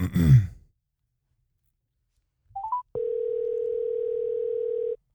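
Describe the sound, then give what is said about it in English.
Phone call tone while calling a sibling: after a breathy sigh, a short two-note electronic blip leads into a single steady, mid-pitched tone held for about two seconds before cutting off. “Oh, you try to call different sibling of yours. Yeah, hold on. Let me see if Kima answers.”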